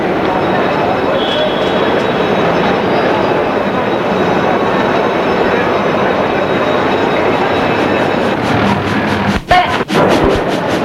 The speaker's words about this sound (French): Le train commence à partir. Il sort de la gare.